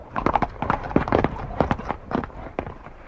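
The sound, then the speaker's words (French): Horse hooves clip-clop as a sound effect: a fast, uneven run of many sharp knocks, loud and steady throughout, with no voices. “Sabot! Sabot! Encore!”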